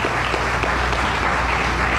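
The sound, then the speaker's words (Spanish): Audience applause for a winner at a journalism awards ceremony: dense, steady clapping from many hands that fills the whole stretch evenly, with no voices over it. “Fónico a Omar Pernía. Un aplauso. Felicitaciones, Omar.”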